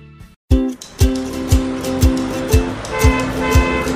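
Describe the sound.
Road vehicles driving, from charity trips carrying aid, with a steady engine drone and tonal, horn-like notes over a regular series of heavy thumps about twice a second.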